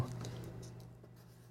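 A red marker scratches and squeaks faintly across a pink sticky note in a steady stroke lasting about a second and a half, over a low, constant hum.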